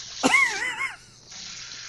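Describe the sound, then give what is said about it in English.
Water running from a tap in a washroom, a steady airy hiss, preceded near the start by a short, wavering, whistle-like tone that warbles briefly before the flow continues alone. “Should I turn the water off?”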